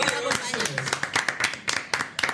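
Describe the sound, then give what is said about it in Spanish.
Hand clapping for Radio Vacaciones, a radio station, heard as many irregular, sharp claps from a small group, interleaved with talk. “Y un aplauso a Radio Vacaciones.”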